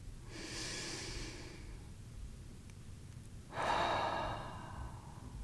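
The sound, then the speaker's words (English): A slow, deep breath is taken during a guided calming practice. A soft, airy inhale is followed by a pause, then a louder, longer rushing exhale, with no talk. “Let's take a breath together and just sort of drop into this moment.”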